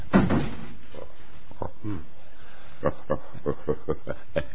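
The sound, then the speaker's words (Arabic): A door is pushed shut with a heavy knock and then bolted, followed by a run of sharp, evenly spaced clicks and rattles from the bolt. “طب اخرج انت وسيبينا، اقفل الباب علينا.”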